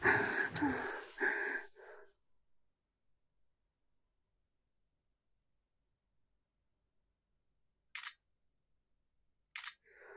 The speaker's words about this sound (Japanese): ちょっと写真撮るね。あれ、足が映っちゃうな。